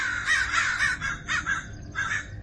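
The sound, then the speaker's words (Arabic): Crows caw in a few harsh, raspy bursts, some clustered close together and others spaced apart, with a short gap near the end before a final call. “واول ما غمض عينه سمع صوت غربان”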